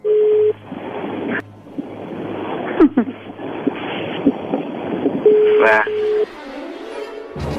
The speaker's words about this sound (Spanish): Bueno, a ver, ahí se está marcando.